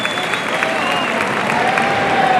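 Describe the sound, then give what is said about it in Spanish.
Applause from a bullring crowd giving a final ovation to a bullfighter, a dense, steady wash of clapping that stays loud and even for the whole stretch. “Se va hasta el tercio Manuel Escribano, que recibe la ovación final.”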